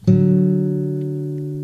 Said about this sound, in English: instead of hitting the A like this, we're going to go for the D, which means hitting the fifth fret of the A string, like this.